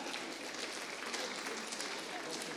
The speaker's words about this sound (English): Would you give everyone a round of applause?